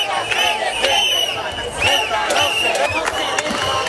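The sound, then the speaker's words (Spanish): Demonstration crowd in the centre of Ceuta, a dense murmur of many voices with scattered shouts and sharp knocks, steady and fairly loud throughout. “Una manifestación en el centro de la ciudad autónoma, casi tres meses después de que fuera invadida, a la que, por cierto, se ha sumado el presidente Juan Jesús Vivas.”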